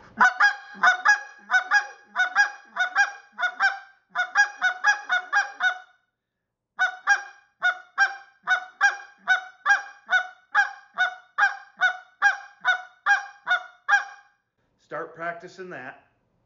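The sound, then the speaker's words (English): A hand-blown goose call imitates the aggressive double cluck of geese with many rapid, sharp, nasal honks in quick clusters. There is a short pause partway through and one lower, rougher call at the end. “or it's just that aggressive double cluck that the geese will do. And I'm going to raise my, and I'm going to push that air a little harder and raise my offhand just a little bit to get this.”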